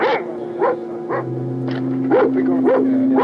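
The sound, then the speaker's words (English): A dog barks in a steady series of short, high yipping barks, roughly evenly spaced, over a constant tonal hum. Loud and clear, with no talking. “Quiet, the dog's barking. Well, the dog confirms it.”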